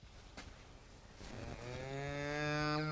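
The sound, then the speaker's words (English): A newborn bull calf, born that morning in a farm maternity shed, gives one long moo that swells steadily louder, following a few seconds of quieter low shuffling noise. “this is our newest calf born this morning. A little boy calf, so it is.”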